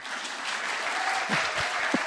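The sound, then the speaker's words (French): Church audience applauding, a dense, even wash of many hands clapping that stays steady throughout, with a few low thumps near the end. “Amen. Oui, on peut applaudir.”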